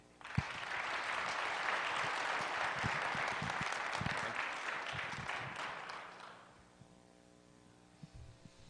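An audience applauds to welcome two visiting musicians from Nashville, Tennessee: dense, steady clapping for about six seconds that then fades away, with a faint hum underneath.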